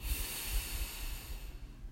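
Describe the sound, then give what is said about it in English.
A slow, deep inhaled breath during a guided relaxation exercise, a soft, steady airy hiss that stays level for about two seconds, with no talking. “And let's take another deep breath in, slowly, deeply.”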